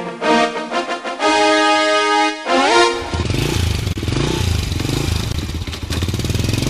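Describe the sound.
Motorcycles with loud aftermarket exhausts rev hard in a street drag race among three bikes: steady buzzing engine tones, a sharp rising rev, then a dense, rough roar of throttle that carries on to the end.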